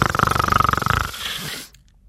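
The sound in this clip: A person imitates snoring with a rapid, rattling run of many short throaty pulses, then a softer breathy hiss that trails off into silence.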